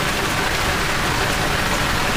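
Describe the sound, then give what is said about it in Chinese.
Steady rain on a February day, an even, dense hiss of falling water that stays constant and fairly loud with no voices over it. “真是奇怪，这二月天怎么总是下雨？”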